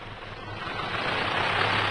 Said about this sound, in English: Now, swing the prop when I give the word, right? Contact!